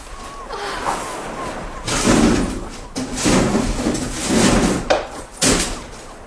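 Someone forcing a locked and bolted castle door produces heavy thuds and rattling in several bursts. The knocks and shoves are loud and uneven, with short pauses between the efforts.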